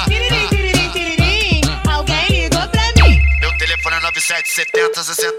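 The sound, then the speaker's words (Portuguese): A telephone ringtone plays as a bright electronic melody of repeated chirping notes, then a quick downward swoop and a higher sustained beeping tone toward the end. “Tiririm, tiririm, tiririm. Alguém ligou pra mim. Esse é o telefone do GW.”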